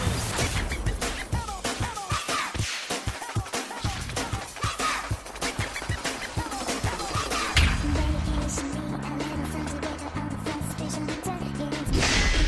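A short music jingle played as a bumper, with punchy percussive hits driving a busy rhythm, then shifting near the end to sustained tonal notes before a final hit.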